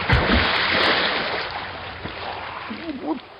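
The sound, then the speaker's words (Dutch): Water splashes and churns steadily as someone moves about in a public pond at night, giving a continuous rushing wash. A voice breaks in near the end. “Het is verboden om in een openbare vijver te zwemmen. En dan in deze tijd van de nacht.”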